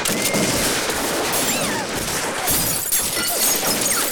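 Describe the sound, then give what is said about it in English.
Window glass of a house shatters under a volley of gunfire from cavalrymen: dense, continuous crackling shots and bursts of breaking glass fill the whole stretch at a loud, steady level. “the glass is blown in”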